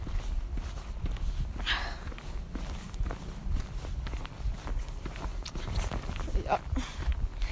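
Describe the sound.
Footsteps walk downhill through a forest above a sheep pasture, a steady run of soft, muffled steps at an unhurried walking pace.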